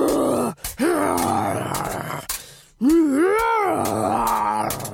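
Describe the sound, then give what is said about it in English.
Grunts, groans and growling roars for a warrior and monster fight in an audio drama, voiced by a person imitating the creature; a few strained vocal bursts, ending in a long, wavering roar. “So I made this audio drama, and it's got this warrior and a big monster fight. Ugh, but this is what it sounds like right now.”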